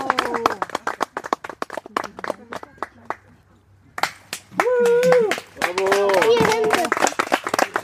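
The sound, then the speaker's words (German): Parents and grandparents clap for a children's acrobatics show, with scattered hand claps mixed into steady voices and children's chatter, followed by louder, sustained voices. “großen Applaus von Eltern und Großeltern”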